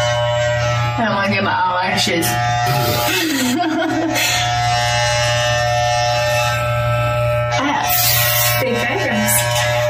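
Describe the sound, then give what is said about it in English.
An electric razor shaving a woman's eyebrows gives a steady, low, droning buzz that runs unbroken throughout while people talk and exclaim over it. “They're shaving her eyebrows.”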